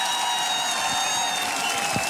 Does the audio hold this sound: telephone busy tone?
no